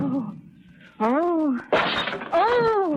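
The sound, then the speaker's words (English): A vase being smashed: a sudden harsh burst of breaking and shattering, with voices speaking just before and after. “Can't I smash one of my own vases if I feel like it? I'll smash whatever I like.”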